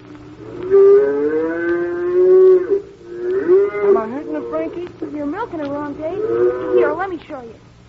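A dairy cow moos insistently, wanting to be milked. One long, loud, drawn-out low call is followed by several shorter, wavering moos in quick succession.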